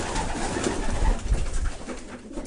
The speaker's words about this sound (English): Go to the pigeon loft. Let me go to the pigeon loft.